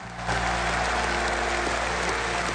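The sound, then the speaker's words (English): Continuous applause and cheering from conference delegates on their feet for Margaret Thatcher, a loud, unbroken roar of clapping with a low steady hum beneath it. “They cheered and stamped their feet for more than 7.5 minutes.”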